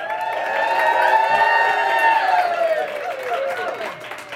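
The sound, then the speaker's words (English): Live studio audience cheering and whooping, many overlapping voices forming a sustained, lively wall of excited sound that stays fairly even throughout. “We have a very passionate, wild and crazy live audience.”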